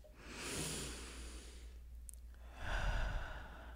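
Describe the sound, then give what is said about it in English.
A group takes a deep breath together, led in a breathing exercise: a long, soft inhale, a brief pause, then a slow, breathy exhale. The breaths are quiet and heard alone, without talk. “Okay, so we're going to take a deep breath. All together.”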